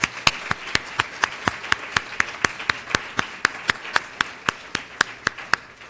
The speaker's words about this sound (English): So a round of applause, please, for Mireille.